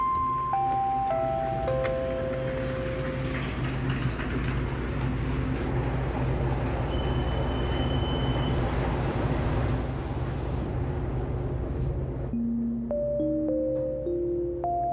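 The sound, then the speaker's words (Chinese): Departing-train sound effect: a short descending chime plays over a steady rumbling wash of train noise, then a rising chime closes the sequence. “本列车将直达童年游戏的回忆，请各位旅客对号入座后等待发车。”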